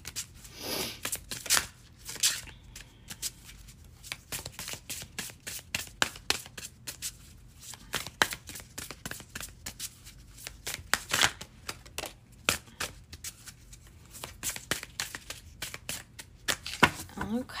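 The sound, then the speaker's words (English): An elemental oracle card deck being shuffled, with many quick papery riffles, flicks and taps in irregular bursts from start to finish. “Let us grab some elemental oracle cards. See if anyone want to come out.”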